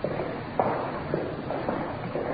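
Footsteps climbing the stairs into the General Hospital in Los Angeles, heading for the main reception: a few soft, evenly spaced steps, each a short dull thud over a low background hush.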